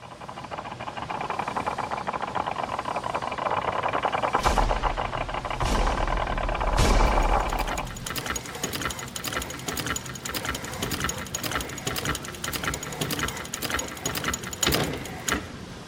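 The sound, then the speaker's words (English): Grinding gears from a church service's opening sequence: a continuous mechanical whir with dense, rapid ticking and rattling throughout, plus a few louder clanks near the middle. “this is our last week in the James series, so the last time you have to watch those grinding gears as we start the service”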